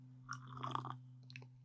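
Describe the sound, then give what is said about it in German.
A sip of coffee: a short, faint slurping mouth sound followed by a few soft lip and swallowing noises, over a steady low hum. “nach einem Schluck Kaffee”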